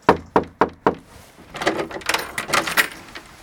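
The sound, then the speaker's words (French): Knocking on the door of a small house: four sharp, evenly spaced raps, followed by a stretch of softer, irregular rustling and knocking noises. “je vais frapper à sa porte. C'est parti. Ou sonner, au choix. Bon, j'aime pas sonner, j'aime bien frapper moi.”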